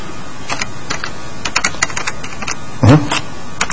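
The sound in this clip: Rapid clicking of computer keyboard keys as text is typed into a rich text editor, a light irregular patter of many keystrokes with a brief louder burst near the end.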